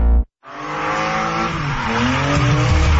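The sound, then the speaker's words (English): Stock cars skid around a stadium circuit: after a short burst and a brief silence, loud engine roar carries sustained squealing tire tones that waver and bend in pitch. “NASCAR Canada takes over Calabogie Motorsports Park this Saturday and Sunday. Experience wall-to-wall racing, high-speed action, and non-stop excitement on their stadium circuit.”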